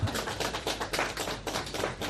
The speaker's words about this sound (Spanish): Son los aplausos que se han ido repitiendo a lo largo del día por toda la geografía española. Estos en concreto son de Extremadura y son para Vicente, el primer vacunado allí.